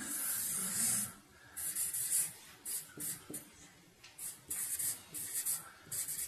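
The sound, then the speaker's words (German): Scratchy strokes of a pen or marker drawing, many short bursts of dry hiss in an uneven rhythm, separated by brief pauses. “Ich fange mal an zu zeichnen.”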